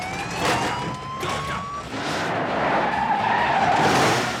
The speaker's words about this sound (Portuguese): Ele vai levar um tempinho para se tocar que está prestes a dar um cavalo de pau em alta velocidade. Mas você vai estar preparado, com um acelerador e o freio de mão postos.